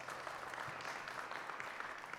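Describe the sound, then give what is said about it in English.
Faint applause from a church audience for the worship team, a steady, even patter of many hands with no single claps standing out. “Let's give a round of applause for our worship team.”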